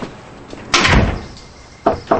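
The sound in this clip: A door at home being opened into a child's room: a dull thud with a short fading rumble, then two sharp, quieter clicks a moment later.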